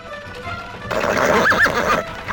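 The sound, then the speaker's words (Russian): A reddish peasant horse pulling a cart along a dusty road lets out a loud whinny. It begins abruptly after a quiet moment and quavers for over a second before fading. “Мы сидим в телеге. Рыжеватая крестьянская лошаденка бойко бежит по пыльной дороге.”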